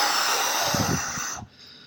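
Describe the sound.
A voice imitates a breath blown onto someone: a long, breathy hiss lasting over a second, with a little low voiced rumble in the middle, that then cuts off abruptly.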